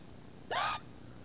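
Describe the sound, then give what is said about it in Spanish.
A voice imitates a hiccup with one short, loud, breathy burst that starts with a quick upward lurch in pitch and stops abruptly, against quiet background noise. “Luego aparece con hipo.”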